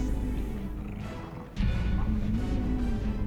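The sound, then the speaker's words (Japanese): A damage sound effect in a video game battle: a loud, gritty roar-like burst over a steady tonal drone that jumps sharply louder about halfway through and holds there. “こんな感じでダメージを与えたところでダメージ音が鳴ります。”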